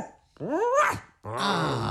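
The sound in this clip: Dog vocalizing in two drawn-out bursts: the first is a rising, whiny yelp and the second a lower, rougher growling bark. Both are fairly loud and separated by a short pause.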